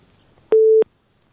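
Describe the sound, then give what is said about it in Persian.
A telephone disconnect tone marks a phone-in call being cut off: one loud, steady, mid-pitched beep lasting about a third of a second, standing alone with no talk over it. “من هم میفهمم که شنونده تماس قطع میشه.”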